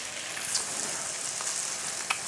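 Steady, bright sizzling of a steak frying in oil in a pan: a continuous hiss with a few faint pops and crackles, fairly quiet and with no voices.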